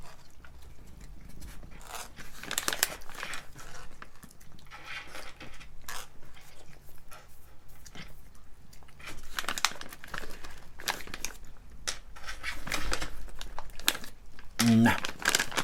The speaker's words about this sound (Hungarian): Jöhet a juti falat a cicának. Ha már streamings kiváltotta, kezdődik az őrület. Tessék cica jutalomfalat. Egyél szépen. Hami, hami.